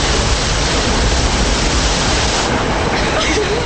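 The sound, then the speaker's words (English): Water floods into a collapsed tunnel as a loud, continuous rushing roar that stays dense and even from start to finish. “A massive section of ceiling collapses. in the tunnel, the group stands and watches water that is now flooding in.”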